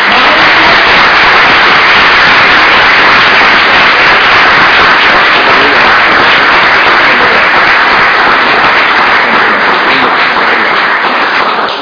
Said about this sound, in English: So please give a round of applause for